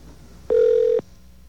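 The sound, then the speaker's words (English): A single steady electronic telephone tone lasting about half a second, mid-pitched and clear, as a cellular call is dialed to a number in the 917 area code. “I will now attempt to call you.”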